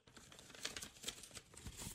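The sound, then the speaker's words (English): Paper crinkling and tearing as an envelope is opened: a soft, continuous rustle with a few sharper crackles, no talking over it. “I'm going to open up your envelope here and see what you got.”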